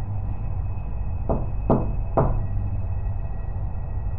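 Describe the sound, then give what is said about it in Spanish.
Three sharp knocks on a door, spaced roughly half a second apart, fairly faint against a steady hum and background hiss. “De nuevo sonaron en la puerta tres golpes.”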